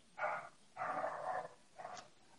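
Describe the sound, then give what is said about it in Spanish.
A female dog barks at home in a few muffled, faint bursts of rough, low-pitched sound, each one drawn out and separated by short pauses. “mi perra ha decidido ladrar.”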